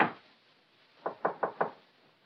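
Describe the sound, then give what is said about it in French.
Knocking on a door in a staged comedy: four quick, evenly spaced raps, soft and dull in tone, with no voices. “Mais frappons à sa porte.”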